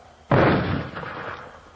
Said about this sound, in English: that was mortars. They just fired maybe 40 feet in back of me. They fire every night, H&I.